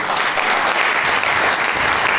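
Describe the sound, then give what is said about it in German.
Loud applause for a show's editorial team: a continuous, dense clatter of many hands at a steady level throughout, with no gaps. “Danke, unsere Redaktion, noch einmal einen großen Applaus.”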